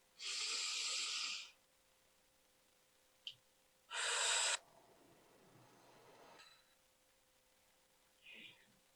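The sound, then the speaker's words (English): A deep breath is drawn in, held through a pause, then blown out in a strong rushing exhale. Both breaths are soft, with faint rustling afterward. “let's take a deep breath in, hold it for a second, and blow it out.”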